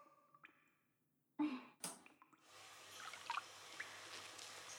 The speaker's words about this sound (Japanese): 地肌に残らないようしっかりと流しますわよ。